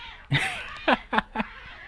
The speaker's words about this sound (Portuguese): os gatos estão brigando aqui perto, não sei se vocês estão escutando, né? Uma brigadeira danada.